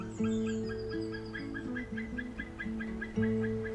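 A bird gives its distinctive courtship call, head raised and beak open, a faint run of many harmonic, honking notes whose pitch steps up and down in an uneven rhythm, with no talk over it.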